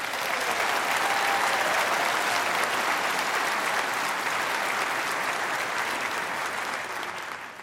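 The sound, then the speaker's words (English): Loud, steady audience applause for a conductor, pianist and organist after singing, a dense sustained clapping that holds for several seconds and eases off slightly at the end, with no talk over it. “They deserve a round of applause.”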